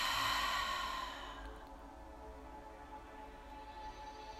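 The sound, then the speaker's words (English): Audible exhale after a deep nasal inhale during a guided breathing exercise: a soft, breathy rush of air that fades over about a second into faint, steady background hiss. “Take a deep inhale through your nose and an audible exhale.”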